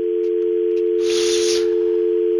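A telephone line tone sounds as a call comes in: a single steady, unbroken mid-pitched tone held loud and even until it cuts off abruptly.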